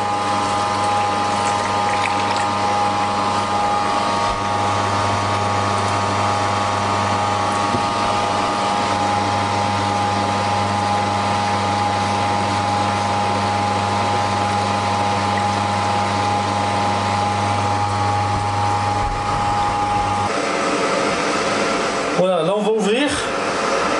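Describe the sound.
A juice extractor's motor runs in reverse rotation with a steady, buzzing hum and a tonal whine. It holds evenly for about twenty seconds before shifting and sputtering briefly near the end.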